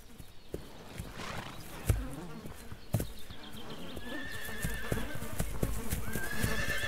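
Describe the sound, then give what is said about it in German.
Wild horse stallions strike energetically with their hooves as rivals, giving a few sharp, isolated thuds over a low rustling background, with high whinnying calls rising in the later part. “Dann werden Hengste zu Konkurrenten. Um Nebenbuhler einzuschüchtern, schlagen sie energisch mit den Hufen.”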